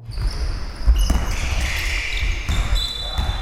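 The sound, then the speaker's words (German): Game noise at a Regensburg Baskets basketball match: a ball thuds on the court and sharp, high sneaker squeaks cut through a steady crowd murmur, with voices audible in the hall. “Richtig, das war die Geräuschkulisse bei einem Basketballspiel. Aber natürlich kein x-beliebiges Spiel, sondern ein Match der Regensburg Baskets.”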